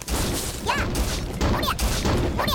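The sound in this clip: Gunshots in a video game, fired at a small demon that dies after three hits. Three evenly spaced shots burst out, each with a short sweeping whine, over continuous loud game noise.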